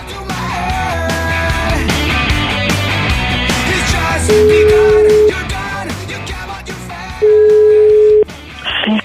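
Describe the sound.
A telephone call rings through as two steady one-second ringback tones, spaced a few seconds apart. They sound over busy music with voices.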